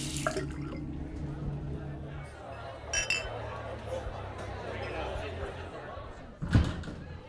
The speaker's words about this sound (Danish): Jeg vasker fingre nu.